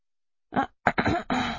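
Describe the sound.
Throat clearing and coughing from a person with a sore throat: a few rough, raspy bursts, the later ones longer and more drawn out, loud with no other sound around them.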